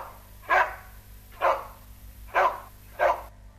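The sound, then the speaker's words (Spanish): Four evenly spaced dog barks, each a short, mid-pitched bark heard alone over a faint steady hum. “Perro.”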